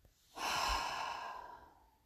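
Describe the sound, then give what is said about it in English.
One long, airy breath, soft and slightly sighing, as part of a slow guided-meditation breathing exercise. It swells quickly, holds, then tapers away gradually, with no talk. “Inhale. Exhale. Inhale. Exhale.”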